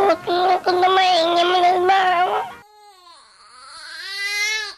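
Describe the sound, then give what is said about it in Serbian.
A 19-day-old baby boy cries in loud, continuous wails for about two and a half seconds, then falls into softer, higher-pitched whimpering that swells again toward the end. “Ovo slatko kmečanje je plač moje bebe”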